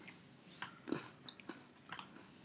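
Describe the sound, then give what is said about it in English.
Crunching and chewing of an Oreo sandwich cookie with its cream frosting, a few faint, soft crisp bites and chews in quick succession, with no talking. “I think it tastes just like a normal Oreo. Both the cookie and the frosting.”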